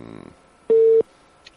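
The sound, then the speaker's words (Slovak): A telephone tone sounds while calling a member of parliament: one steady, mid-pitched beep held for about a third of a second after a brief stretch of voice. “Ale už telefonujeme, už zvoníme pánovi poslancovi.”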